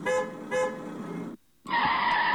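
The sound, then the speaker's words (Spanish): A car accelerates and skids while hurriedly parking on a university campus, its tires squealing in a loud, tonal screech. The screech is broken by a short silence before a second, brighter squeal. “¡Corre! Camil, acelera.”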